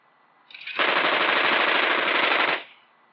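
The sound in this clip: A prototype three-barrel 30mm cannon fires in a helicopter turret test, a single continuous burst of very rapid, loud shots lasting under two seconds, with nothing else heard.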